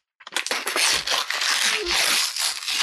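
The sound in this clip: Paper crackles and tears as a golden envelope is opened, a dense burst of rustling and crinkling lasting a few seconds.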